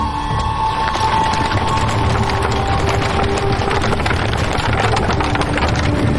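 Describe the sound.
Wooden rattling and creaking of a horse-drawn cart pulling away, a dense, continuous clatter that holds steady and fairly loud throughout.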